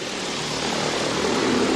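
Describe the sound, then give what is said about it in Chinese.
Steady whirring roar of propellers as a low-altitude logistics delivery drone takes off on its route, dense and continuous, growing slightly louder over its short span. “现在飞机已经开始执行路线了。”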